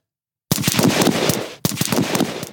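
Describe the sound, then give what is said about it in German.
Automatic gunfire crackles during weapons training that drills switching between different firearms; two loud, sustained volleys of rapid, sharp shots, the second following straight after the first, with no voices. “An diesem Wochenende trainieren die selbsternannten Landesverteidiger stundenlang mit verschiedenen Waffen, vor allem den Wechsel von einer zur anderen.”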